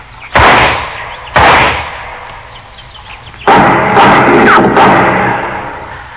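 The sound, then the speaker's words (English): Gunshots in a western radio drama: two sharp, loud separate shots, then after a pause a quicker burst of several more, each with a short ringing decay. “Well, I'll put a couple of shots in there. Maybe he's ready to give up.”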